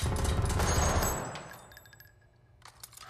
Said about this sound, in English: Yes, he's shooting at us.